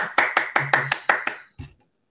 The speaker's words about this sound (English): Yes, applause, applause, applause.